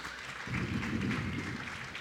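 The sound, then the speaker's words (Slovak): An audience applauding a Czech participant during a debate, a brief, steady patter of clapping that swells slightly and holds at a moderate level. “Zatiaľ väčšinou tlieskajú Čechovi, to je pekné.”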